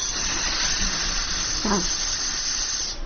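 Air hisses steadily out of an opened gas cylinder valve in the open air, a continuous, even rush of breathy noise that holds at the same level for the whole clip.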